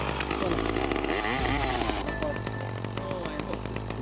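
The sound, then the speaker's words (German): A chainsaw mounted on an eight-propeller octocopter drone buzzes on a farm in Finnish winter, a loud, raspy engine whine with rotor hum, mixed with pulsing music and steady bass notes throughout. “Auf einem Bauernhof befestigen 3 Männer eine Kettensäge an einem Oktokopter. 8 Propeller reißen die Killer Drone in den Himmel.”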